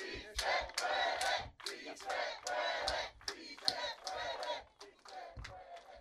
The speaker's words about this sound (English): We are listening to the kickoff of the march to Sacramento for the governor's signature.